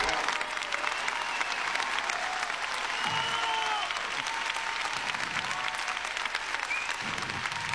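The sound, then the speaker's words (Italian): Standing ovation from judges and audience at a talent competition after a performance, a steady, dense wash of applause that continues at an even level throughout. “standing ovation da parte dei giudici e credo anche da parte del pubblico”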